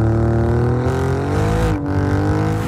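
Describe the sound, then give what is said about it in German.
An Alfa Romeo car engine revving loudly in a continuous, strong growl whose pitch climbs in steps, dips briefly, then picks up again. “Der Alfa Romeo Sound.”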